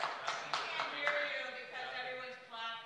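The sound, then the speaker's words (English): Scattered audience clapping at a Los Angeles city council meeting, a few sharp claps over a steady bed of talking voices, moderate and fairly even throughout. “because everyone's clapping.”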